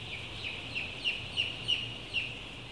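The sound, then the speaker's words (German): Many chicks in a poultry fattening barn peep in a dense, faint high chorus, with a few slightly louder chirps standing out over a low steady background hum. “Um unsere Füße herum wuseln die Küken.”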